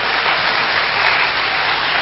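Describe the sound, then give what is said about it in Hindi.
Loud audience clapping at a Hindi-language talk forms a continuous, even wash with no breaks and no speech. “अब ताली भाइयों ने बजाई या बहनों ने? अच्छा दोनों ने बजाई।”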